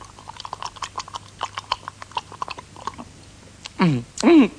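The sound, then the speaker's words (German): A voice imitates lapping up a lake of sweet-smelling liqueur with many quick, wet smacking and licking clicks in an irregular rhythm. Two loud, voiced slurping sounds with a wavering pitch follow at the end. “Ist ein Likörsee. Gut. Und jetzt werde ich den ganzen schönen See aufschlecken.”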